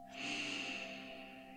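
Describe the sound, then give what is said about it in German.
Deep inhale through the nose during a guided meditation ritual: one long, soft, airy breath that holds steady, then slowly fades, over a faint sustained musical drone. “Und noch einmal tief durch deine Nase einatmen.”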